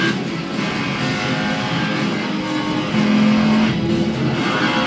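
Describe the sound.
A car engine drones steadily as a convertible drives through a tunnel in a video game, a loud, even motor hum with a brief higher tone partway through and no speech.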